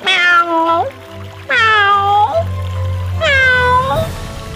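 A cat meows three times on a riverbank, tail raised. Each cry is long and clear and dips in pitch at the end, over a low steady hum.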